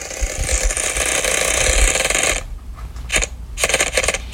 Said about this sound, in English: we are going to give the wheel a spin and hopefully it will be a little kinder.